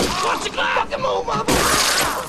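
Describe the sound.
Glass shatters in a broad, crackling burst amid loud shouting men during an armed holdup near a car, the smash swelling midway and spilling on to the end beneath the yelling voices.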